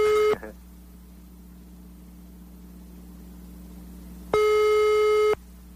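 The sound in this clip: Telephone tones on a call to a landline give a busy signal: a brief steady beep at the start, then after a long quiet stretch with a faint low hum, a second, longer beep.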